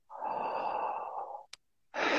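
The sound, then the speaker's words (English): A deep, slow guided breath from a breathwork exercise, drawn down into the belly and released as one long audible breath of over a second. A short click follows after a pause, then another breath begins. “That breath pours right down to the bottom of the belly. It then goes to the lungs. It then goes to the chest. It then releases. Feel the belly first, then the lungs, then the chest, then it releases.”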